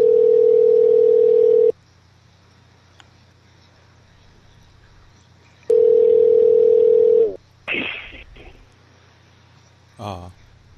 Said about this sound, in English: Just call over and over until he answers.